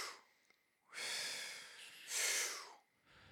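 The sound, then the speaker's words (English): Deep, paced breathing during a rhythmic breathing exercise of thirty full breaths: a couple of long, airy breaths, soft and faint, with near silence between them. “Breathe in, breathe out. Breathe in, breathe out, right?”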